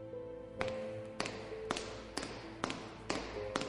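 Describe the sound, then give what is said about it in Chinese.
Stiletto high heels click on a marble school floor, approaching: seven sharp, evenly spaced taps in a brisk walking rhythm over a faint steady hum. “细跟高跟鞋与地上的大理石摩擦声由远而近地来到了2年13班的门口”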